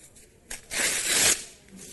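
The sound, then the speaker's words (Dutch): A sheet of paper is torn in one quick rip, a bright, crackling tear of about half a second. It rises sharply out of near silence and fades away afterward. “Maar waarom zou je een papier scheuren?”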